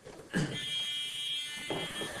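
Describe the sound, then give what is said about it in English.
Electric buzzer from a battery-powered demonstration: a faint, steady, high-pitched buzzing tone that sounds without a break through to the end. “I got a buzzer.”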